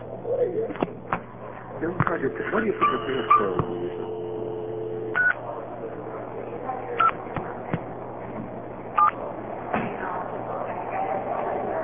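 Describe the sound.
A payphone number is dialed one digit at a time, with short tones and clicks separated by clear pauses over a steady low hum.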